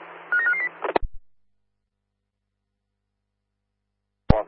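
Telephone keypad tones sound as a quick run of a few dialing beeps, followed by a couple of clicks, a long silence and then another sharp click.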